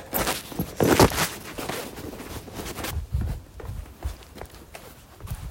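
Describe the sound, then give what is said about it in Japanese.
Footsteps of someone out for a walk outdoors, many irregular scuffing and crunching steps over a noisy background, with no clear even rhythm. “では散歩に行きます”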